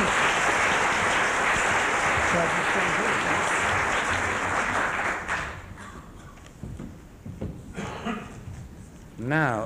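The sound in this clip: Dense audience applause welcomes the screenwriter Andrew Davies to an evening talk. The full, even clapping lasts about five seconds, then fades, and a man starts speaking.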